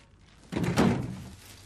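A dull door thunk as someone comes in through an open door, one heavy low impact followed by a short rumbling decay that fades out, with no talk.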